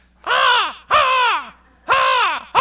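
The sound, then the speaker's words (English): Crows caw from pine trees in the morning: loud, harsh, hoarse calls with a falling pitch, repeated at steady intervals. A further caw is cut off at the end. “we don't have crows in Hawaii. And my room was on the fourth floor right outside of these pine trees that the crows used to love to stay in overnight.”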